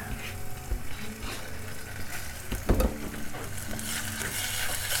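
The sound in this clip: Bacon and garlic frying in a pan for soup give a dense, continuous sizzle, with occasional soft knocks from stirring.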